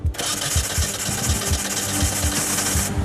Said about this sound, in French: Le moteur de 1400 cm3 va-t-il démarrer et donner vie à la GT ou pas?